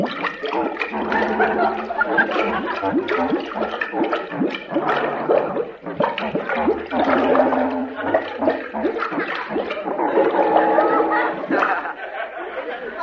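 Underwater bubbling and gurgling mixed with a clarinet melody, as if played by a skin diver underwater in a kelp bed: wavering, burbling tones in continuous phrases with brief pauses, loud and alone.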